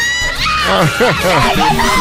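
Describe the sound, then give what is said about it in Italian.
Female fans screaming the name Austin Powers, several loud high-pitched voices shouting in overlapping bursts with swooping, rising and falling pitch. “Vabbè, e ovviamente lui, Austin Power, l'han gridato anche le sue fans.”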